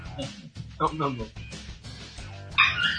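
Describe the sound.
Dog barking and yipping excitedly, with a few sharp barks and whimpers mixed in among people talking.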